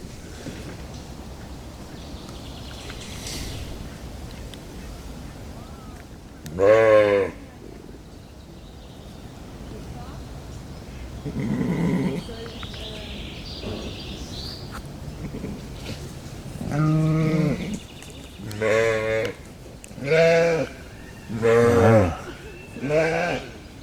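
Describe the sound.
Goats bleating around a mother goat with her kids: one wavering, nasal bleat early, then a rapid run of several more bleats near the end, with a person talking in between.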